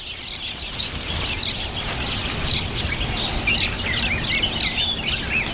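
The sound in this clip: Black-faced birds calling at a nest with chicks: many quick, high chirps and twitters run on continuously over a steady low rumble, with no voices.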